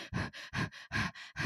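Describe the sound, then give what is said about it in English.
A voice imitates shallow, constricted breathing with a rapid, even run of short panting breaths, quick in-and-out puffs alternating stronger and weaker in a tight rhythm. “if you are dysregulated, your breath is shallow and it's like,”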